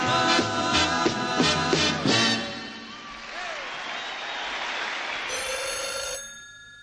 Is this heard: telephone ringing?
yes